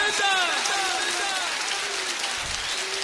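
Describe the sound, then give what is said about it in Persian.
A crowd claps hands steadily at a devotional gathering for Imam Ali, a dense, continuous patter of applause mixed with voices chanting or singing above it. “دست بزن”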